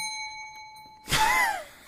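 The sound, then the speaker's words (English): A bell rings during a game, a sustained bright metallic tone that cuts off abruptly, followed by a short loud burst sweeping downward and fading. “I knew that was. I had a feeling the bell was coming. I could feel it coming.”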